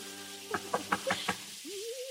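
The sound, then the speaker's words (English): Five quick, evenly spaced knocks at a door, crisp and moderately loud, sounding over a faint sustained tone. “Phoebe, there's someone at the door. Phoebe, stop your dancing and hear me. Someone is coming.”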